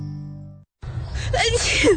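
A sharp, breathy sneeze bursts out loudly after a short steady low tone and a brief moment of silence, its noisy blast lasting about a second.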